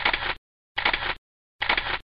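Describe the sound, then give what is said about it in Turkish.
Camera shutter fires three times as a portrait photo is taken, each a short, crisp mechanical burst of even length, separated by clean silence at a steady rhythm. “Şimdi biraz gülümseyin. Çekiyorum.”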